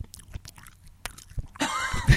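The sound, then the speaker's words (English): Dry mouth noises: a few sharp lip and tongue clicks and smacks, then a rougher, louder crackling stretch of mouth sound near the end, with no talking. “It's in my dry mouth. It's the dry mouth noises.”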